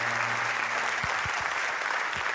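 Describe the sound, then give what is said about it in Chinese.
Applause from an audience at a stage event with awards and a dance performance: a dense, steady patter of clapping hands with a few sharper individual claps, loud and continuous for about two seconds, over a faint low hum. “感谢大家的掌声。”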